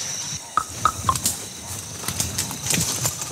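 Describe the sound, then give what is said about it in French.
A male gorilla beating his chest in the wild, a quick series of hollow pops clustered near the start, followed by fainter scattered knocks against a hissing background. “Oh, ils sont là. C'est Kingo qui est en train de se frapper la poitrine. En général, il fait ça pour regrouper les femelles ou pour éloigner un grand mâle”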